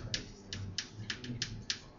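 Typing on a computer keyboard: several sparse, quiet keystrokes click at an uneven pace over a soft low background hum.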